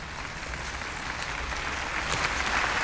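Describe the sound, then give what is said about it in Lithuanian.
A young audience applauds the Pope's words, a dense, steady wash of many hands clapping that grows slightly louder toward the end. “Jaunimas į popiežių žodžius atsiliepė plojimus.”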